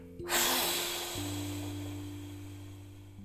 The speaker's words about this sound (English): and then a huge breath out for eight and we're going to really push it out.